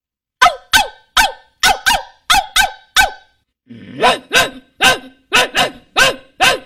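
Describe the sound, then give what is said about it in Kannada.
A big dog and a small dog barking: a run of sharp, evenly spaced barks, a short pause, then a second run of barks with a rougher onset. The barks are loud, with no voices. “ದೊಡ್ಡ ನಾಯಿ ಮತ್ತು ಸಣ್ಣ ನಾಯಿ ಕೂಗುವುದು.”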